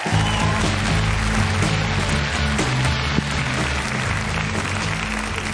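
Audience applause welcomes a comedian onto the stage at a stand-up show, with dense, steady clapping that stays at an even loudness from start to finish.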